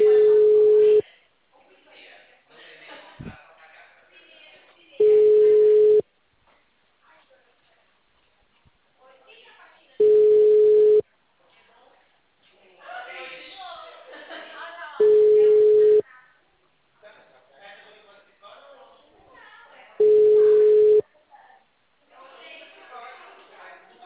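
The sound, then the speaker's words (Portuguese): A steady telephone tone plays while a phone call is being placed: five even one-second beeps about five seconds apart, with people talking in the gaps between them. “eu vou fazer uma ligação.”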